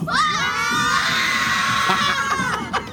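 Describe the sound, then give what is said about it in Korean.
Schoolchildren on a visit to KBS shout and cheer together, a loud, sustained mass of high young voices that holds steady for about three seconds. “KBS를 또 견학 온 예. 우리 어린 학생들의 예. 기운 여러분 한번 받아보시겠습니까? 진짜 오리지널 생기운 한번 받아보시죠. 네. 마이크 열어주시면 얘들아 소리 질러!”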